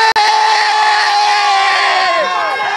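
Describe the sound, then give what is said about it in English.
Spain football fans cheer and shout together at a stadium match against Argentina. The loud, sustained group yell holds steady, then slides downward in pitch near the end. “So can you make some noise for Spain? Let the entire Spain!”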